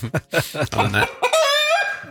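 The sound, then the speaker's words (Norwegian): A hen clucking: a few quick, sharp clucks, then a longer, drawn-out, higher cackle, fairly loud and alone. “Du kan ikke vinne noe hvis du hører høna i dag, dessverre.”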